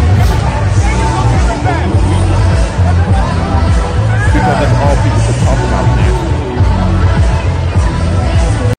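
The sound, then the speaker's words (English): Upset crowd voices at a San Diego Padres baseball game form a dense, loud, continuous hubbub of babble and chatter with no break. “Maybe you may hear some voices wildly upset.”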